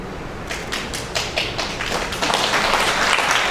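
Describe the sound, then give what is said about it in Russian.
Audience applause at a talk in Odesa, starting with a few separate claps and building into denser, steady clapping. “Я вижу, что мужчина, за которого вы держите, он тоже хлопает в ладоши.”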